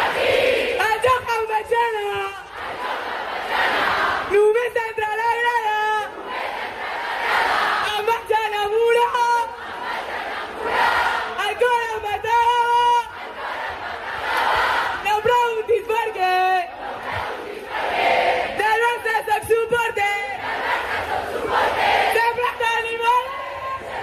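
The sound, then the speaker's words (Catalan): Loud crowd chanting and cheering fills a Barça women's Champions League title celebration at the Maria Cristina stage, with a player acting as master of ceremonies to rouse the fans. Many voices chant in rhythmic, repeated phrases, with brief dips between bursts and steady loudness throughout. “Cata Coll precisament va fer una mica de mestre de cerimònies i res més arribar a l'escenari de Maria Cristina, ja va encendre el públic.”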